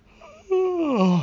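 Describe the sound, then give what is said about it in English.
A person yawning: a soft intake leads into a drawn-out, voiced, moaning sound that swells and then slides downward in pitch, heard alone. “I'm totally messing up the podcast because I'm yawning in it. I mean, who wants to hear a yawn in a podcast?”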